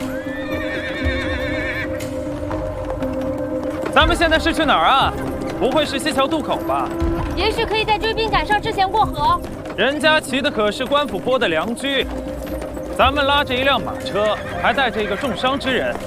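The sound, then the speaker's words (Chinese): A horse pulling a carriage gives several loud, high whinnies over the steady clip-clop of its hooves, which runs through most of the passage. “咱们拉着一辆马车”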